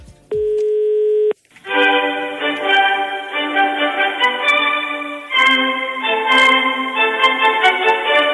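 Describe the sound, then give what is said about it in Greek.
A single steady telephone line tone of about one second while calling the prime minister's office at the Maximos Mansion, followed after a short gap by continuous, layered electronic tones. “Ας ξαναπάρουμε στο Μέγαρο Μαξίμου να δούμε τι ακριβώς αντιμετώπισε ο Ζόραν Ζάεφ”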